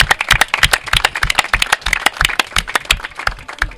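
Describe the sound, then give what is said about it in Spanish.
Applause from an audience: many hands clap in a dense, steady patter that stays loud throughout. “Bien, un aplauso ahí. Un aplauso ahí.”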